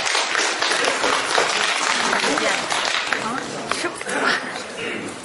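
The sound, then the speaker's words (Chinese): Sparse audience applause at a crosstalk comedy show: scattered clapping that keeps going for several seconds, fairly loud but thin and uneven, dipping briefly near the end. “谢谢谢各位稀稀拉拉的掌声”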